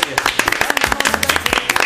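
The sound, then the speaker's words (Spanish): Studio audience applause, a rapid patter of many overlapping hand claps held at a fairly even loudness for the whole stretch, with some voices mixed in. “Listo, amigos, aplausos.”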